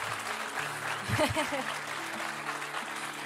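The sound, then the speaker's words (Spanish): Applause from a church audience welcoming newcomers: dense, steady clapping that runs through the whole clip at an even level, with a voice briefly speaking over it near the middle. “Y este aplauso representa el cariño de toda nuestra casa”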